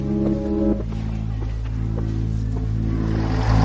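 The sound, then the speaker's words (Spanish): A city bus pulls away with a low, droning engine hum and rumbling mechanical tones, growing slightly louder toward the end. “Un autobús de línea se va.”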